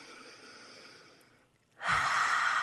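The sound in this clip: A deep belly breath rushes in loudly after a quiet stretch, a broad, breathy hiss that starts suddenly and holds steady to the end.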